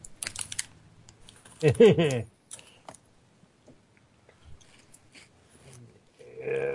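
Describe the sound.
Typing on a computer keyboard: irregular clusters of light, dry key clicks with pauses between bursts. A brief voice sound comes near the end.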